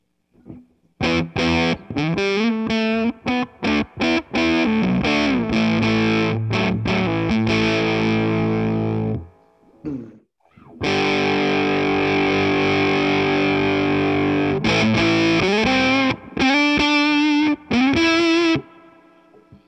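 An electric guitar plays through a Boss Waza-Craft Tone Bender fuzz pedal on the bridge pickup with the tone rolled off, giving a thick, buzzing distortion. A run of short choppy notes gives way after a brief gap to long sustained chords, then it ends in clipped stabs.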